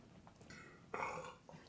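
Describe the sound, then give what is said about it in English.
A person lets out a faint, drawn-out burp with a throaty, rumbling rasp, set between a couple of softer brief sounds. “You couldn't have vamped over my disgusting burp.”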